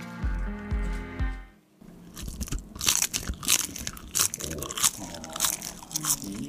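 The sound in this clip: Crisp crunching and wet chewing of a juicy pear, with many uneven bites and squishy munches in quick succession, fairly loud and close, without talk.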